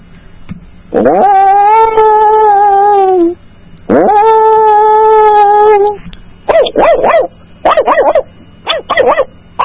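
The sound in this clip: A person imitates a dog, opening with two long, drawn-out wavering howls, then breaking into many short, yappy barks in quick bursts. The voice is loud and clear, with no other voices.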